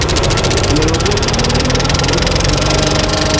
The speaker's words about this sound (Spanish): Ahora arrancamos la lámpara. Y ahora ya podemos proyectar. Arrancar, está todo metido. La luz ya la tenemos. Marcha, mira.